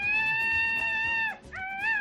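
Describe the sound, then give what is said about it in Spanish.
An adult male peacock calls twice in loud, harmonic wails: a long, steady cry followed by a shorter one that rises slightly and then eases off. “Un macho adulto de pavo real”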